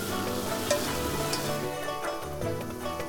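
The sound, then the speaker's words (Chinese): Fatty pork and chili peppers sizzle as they are stir-fried in a hot wok, a loud, steady, hissing crackle that barely changes throughout, with no talk. “肥肉入锅，煸炒出肉香，辣椒紧随其后，快速翻炒，让肥肉的脂肪和辣椒在高温下互相融合。”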